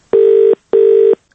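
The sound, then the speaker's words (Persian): Telephone tone heard while placing a call to a number abroad: two long, steady, loud tones of identical pitch, separated by a brief silence. “بیایید راستن به او تلفن کنیم.”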